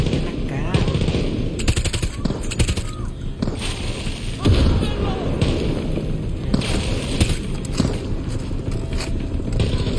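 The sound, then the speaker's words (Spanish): Gunfire in a video game: many rapid automatic bursts with brief gaps between them, loud and harsh, mixed with occasional thuds and scraping sounds throughout. “¡Sigan disparando!”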